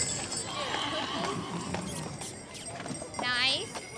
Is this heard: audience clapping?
no